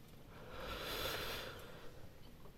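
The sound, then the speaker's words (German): A single deep inhalation by a performer in a dark orchestra pit, a soft airy rush that swells, peaks and fades away, faint and alone. “Ich atme ein.”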